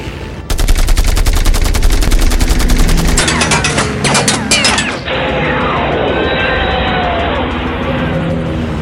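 Twin chain guns fire in loud, rapid, continuous bursts that start abruptly and hammer on without pause, the texture of the barrage shifting partway through before settling into a steadier roar.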